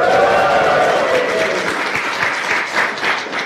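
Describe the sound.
An audience at a GDG DevFest developer conference in London applauds and cheers. A burst of loud cheering voices at the start gives way to steady, dense clapping that continues to the end.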